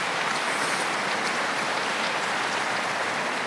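Applause welcoming the Bishop of Meath to an afternoon church service: a dense, steady wash of many hands clapping, holding an even level from start to finish with no voices.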